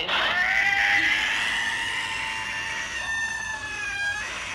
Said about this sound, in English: That's a cat. That is a cat. Sitting in a kennel at the vet's office.